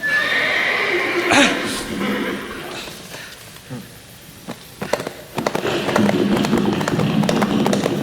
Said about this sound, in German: Oh, er reitet davon.